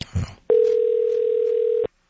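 Ringing on an outgoing telephone call comes as one steady, even mid-pitched tone lasting just over a second. A short noise comes before it, and silence follows.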